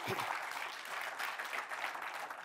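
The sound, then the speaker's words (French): Church audience applauding, a dense, steady wash of clapping that stays loud and even across the whole clip. “Est-ce que je peux entendre une église qui acclame notre Dieu, qui a pourvu?”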